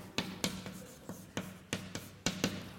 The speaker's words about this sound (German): ich schreibe es nochmal als